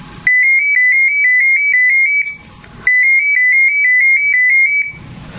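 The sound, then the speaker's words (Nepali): Telephone ringing with an electronic ringtone: two long bursts of quick, evenly pulsing high-pitched trill, separated by a short pause, loud and alone. “अचानक phone आउँछ।”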